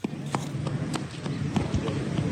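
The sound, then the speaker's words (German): Running footsteps of a small boy crossing a square lined with closed shops in Muzaffarabad, Kashmir: many sharp, quick steps in an uneven rhythm over a steady low background hum. “Ein kleiner Junge läuft über einen Platz, der von geschlossenen Geschäften gesäumt wird.”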